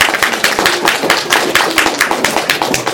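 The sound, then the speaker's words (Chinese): A church audience claps in unison, many sharp, evenly spaced hand claps in a quick steady rhythm, loud and with almost no talk. “所以我们说把用掌声来归荣耀给神。那么我们也用掌声呢，来激励我们可以彼此的激励，”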